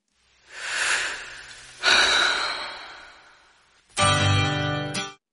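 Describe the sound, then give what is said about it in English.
Breathing and a guitar strum from a 1988 rock song: two loud, breathy breaths, each about a second long, then a single bright guitar strum that rings for about a second and cuts off. “You're going to hear a breath and a guitar strum, and that's all you're getting.”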